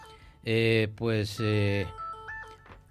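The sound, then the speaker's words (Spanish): A telephone ringtone signals an incoming call to a radio station, a bright melodic jingle of three sustained notes followed by softer, shorter tones. “vamos a ver, están llamando de Ecuador, un momentito, cortamos la llamada, a ver qué pasa, quién es”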